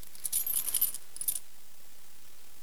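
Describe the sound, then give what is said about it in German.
Keys jangling: a brief cluster of bright, tinkling metallic clinks lasting about a second, then a short second shake, before quiet. “Also hier sind bloß, warte mal, sind bloß meine Schlüssel.”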